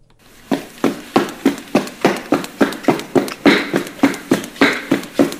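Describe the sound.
Running footsteps, a fast, steady series of many hard thuds in an even rhythm, loud and alone from start to finish.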